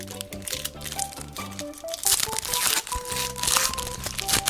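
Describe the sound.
A wrapped pack of trading cards is torn open, its crinkly wrapper crackling and rustling in a dense, continuous run of crunches over steady background music.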